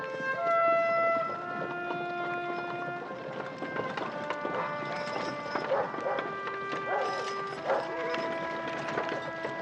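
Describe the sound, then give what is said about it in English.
Horses walking down the main street of Payson in the Arizona Territory, carrying bodies, heard as hoof clip-clops under sustained tonal music. “Dylan leads the horses carrying the three hanged men down the main street.”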